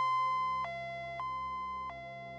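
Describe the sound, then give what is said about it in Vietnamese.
An ambulance siren sounds across an upscale villa district at night: a loud, sustained electronic tone with a few brief breaks where the pitch jumps, then carries on at a steady level. “tiếng xe cấp cứu vang vọng cả khu biệt thự cao cấp.”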